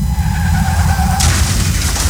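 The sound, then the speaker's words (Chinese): Car skidding and crashing as a sound effect in a road safety advert against speeding: a tonal tyre screech gives way halfway through to a harsh, broad burst of impact noise that stays loud to the end. “继续直行，可能就是一场危及生命的车祸。”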